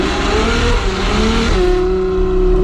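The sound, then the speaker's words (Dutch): Ferrari sports car engine roaring loudly as it speeds along a road in The Hague, a continuous heavy roar with the engine pitch shifting as it revs. “Dus als je zo met je Ferrari over de Haagse Vier scheurt,”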